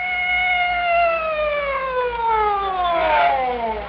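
A police siren wails in one long tone that glides steadily downward in pitch over several seconds, with a low rumble underneath.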